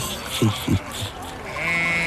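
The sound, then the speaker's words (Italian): Little goats bleat on their way to pasture, giving a few short, quick bleats close together against a steady background of outdoor noise. “Passa con le sue caprette dirette al pascolo e pascola pensieri non detti, mentre misura la terra a gambe.”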